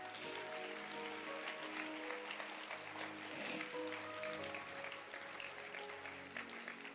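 Audience clapping at the close of a prayer gathering, a dense, sustained wash of applause that stays at an even loudness throughout with no pauses and no talk.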